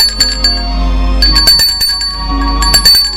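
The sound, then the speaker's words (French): A bell rung at a front gate: a quick, uneven run of bright metallic strikes whose high ringing tones linger between hits, over a steady low hum. “on sonne à la porte du portail.”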